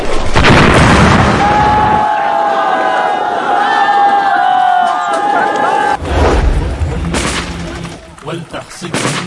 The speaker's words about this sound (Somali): iyadoo filimka lagu daawanayo qarax xoogan oo xeerada ciidanka ka dhacay, kaas oo geystay burbur xoogan.